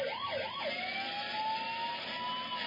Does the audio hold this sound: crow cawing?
no